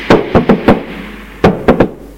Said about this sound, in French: Une demi-heure plus tard, sa mère frappe à sa chambre.